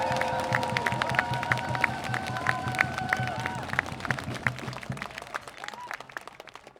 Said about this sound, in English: So please give a very generous round of applause to Maaike Tralala from New Neighbors Utrecht!